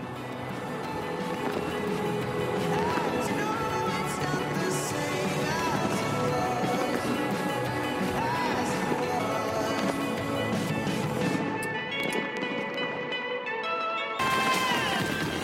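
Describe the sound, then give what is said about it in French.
Many dense crackling bursts and bangs of a midnight New Year's fireworks display fired from the Arc de Triomphe over a large crowd on the Champs-Élysées, with a love-and-celebration theme. The loud, continuous volleys barely pause throughout. “Une foule compacte comme on n'en avait plus vu depuis très longtemps pour assister à, à minuit au feu d'artifice tiré depuis l'Arc de Triomphe.”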